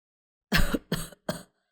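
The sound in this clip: An old man coughs hard three times. The first cough is the longest, and the following two come shorter and slightly weaker, alone with no other sound.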